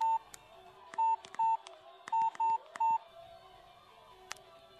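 A telephone number is dialed on a touch-tone keypad: five clear, evenly pitched beeps, two and then three, each short and crisp, with faint clicks between them and no talk.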